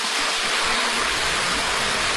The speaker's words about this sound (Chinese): 大家能够听到潺潺的流水声，在门口的一个假山小瀑布景观和这种喷泉景观。